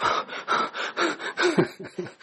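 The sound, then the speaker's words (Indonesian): A voice imitates panting, out of breath, with a rapid series of short, rhythmic breathy gasps that grow quicker and more ragged toward the end. “Rasulullah melihat Aisyah kok ngos-ngosan.”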